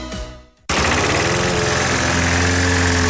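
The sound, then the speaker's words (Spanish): A lawn mower engine bursts in abruptly after a brief fading noise and then runs loud and steady with a low, rumbling drone and a rough, vibrating texture. No voices. “¿Cansado de perder horas cortando el césped?”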